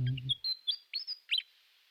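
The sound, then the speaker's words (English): A small bird chirps in a few short, high, thin notes spaced closely apart, faint and alone after a brief trailing voice at the start. “come back and sing anytime you care to, little bird.”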